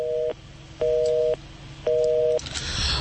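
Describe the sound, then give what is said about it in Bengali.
A telephone busy tone after a call line drops: three steady, mid-pitched beeps separated by short silent gaps, evenly spaced, followed by faint noise. “দুঃখিত আমরা চেষ্টা করছি আবারও তাকে আবার ফোনে নেবার জন্য। অনেকেই জয়েন করেছেন এবং গল্পের এমন একটা মুহূর্তে লাইনটা আবারও কেটে গেল।”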